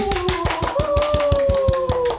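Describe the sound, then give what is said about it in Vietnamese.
Hands clap in a steady, even rhythm, with about a dozen sharp claps over sustained musical tones. “Vỗ tay.”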